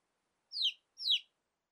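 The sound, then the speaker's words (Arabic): A small chick chirps as it looks for its mother: two short, high, downward-sliding peeps, evenly spaced and alone against silence. “كتكوت صغير يبحث عن أمه.”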